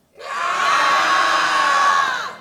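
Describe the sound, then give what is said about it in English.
An audience yells together on a count of three, one loud, sustained mass scream that starts abruptly, holds for about two seconds, then tails off. “on the count of three, we're just going to yell. We're just going to get it out right here. Okay, 1, 2, 3.”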